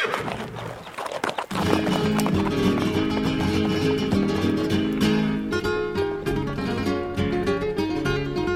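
Clip-clop of a milk-cart horse's hooves, a steady rhythmic trot that starts after a short, quieter opening and continues loud and dense to the end.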